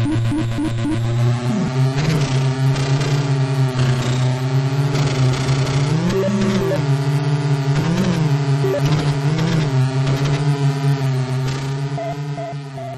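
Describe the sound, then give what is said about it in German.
Jeep engines drone as they drive across a breakfast table, a loud, monotonous hum with wavering pitch that runs continuously and fades slightly at the end. “Also wir können jetzt hier mal reinhören, wie das klingt, wenn man mit Jeeps über den Frühstückstisch fährt.”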